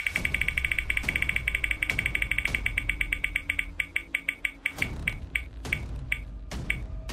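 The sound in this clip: A prize wheel on a quiz show spins, its rapid, even ticking clicks gradually slowing as the gaps between clicks widen toward the end.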